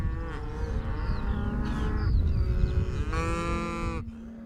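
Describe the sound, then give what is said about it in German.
A cattle herd on the move to a new pasture, with several overlapping moos and long lowing calls rising over a dense, continuous rumble of the animals, loud throughout with no talk. “Die Jungen stürmen zuerst los. Das ist ungewöhnlich. Eigentlich sollten die Alten voraus, da sie den Weg kennen. Ist die Herde erst mal losgelaufen, ist sie bis zum Ziel kaum zu stoppen.”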